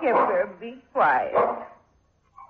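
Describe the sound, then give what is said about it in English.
An old dog barks a few times, loud harmonic barks with short pauses between them, then a faint final yip. “be quiet. He knows, poor old dog.”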